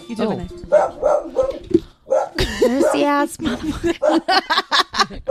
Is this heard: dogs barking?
yes